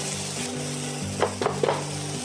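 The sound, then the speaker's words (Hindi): Vegetables frying with red chili and turmeric spices give a steady, even sizzle with a low hum beneath. Three short stirring clatters come close together in the middle. No one talks. “थोड़ी सी लाल मिर्च and little bit of turmeric मसाला जैसे भुन जाए उसमें हम डाल देंगे बाकी सब्जियाँ”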